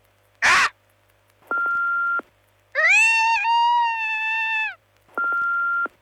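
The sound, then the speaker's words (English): A person's voice imitating a bald eagle's call: a long, high, wavering cry with a slight break midway, preceded by a short noisy burst and framed by two steady electronic beeps, one before and one after. “Max the Bald Eagle from Marathon here. We asked people if they could do an impression of me. Have a listen.”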